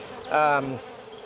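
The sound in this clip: A honeybee buzzes at an open beehive: one short, steady-pitched drone lasting about half a second that stands out above a quiet background.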